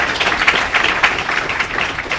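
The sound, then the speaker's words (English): A crowd applauds a discussion panel at the close of a session. The clapping is thick and continuous, fairly loud and even, with no speech over it. “Let's give a round of applause to our panel for the day.”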